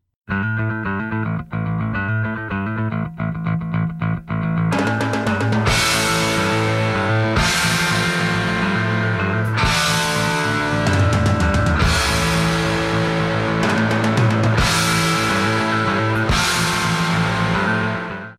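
Funky progressive rock song playing from an album recording. A sparser rhythmic opening gives way after a few seconds to a loud, full band with punchy, regularly accented beats driving steadily to the end.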